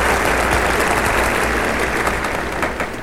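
A studio audience applauds with dense, continuous clapping that holds steady and eases slightly toward the end.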